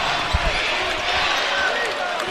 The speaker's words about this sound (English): Lamont Butler. Dribble left wing.